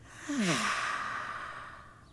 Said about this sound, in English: Breathe slowly in through our noses and breathe slowly out through our mouths.